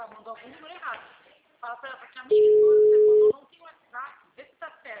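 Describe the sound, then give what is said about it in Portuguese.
A telephone ringback tone sounds once as a steady, even pitch lasting about a second while the call goes unanswered, with people talking before and after it. “Ligando até chama, só que não atende, entendeu?”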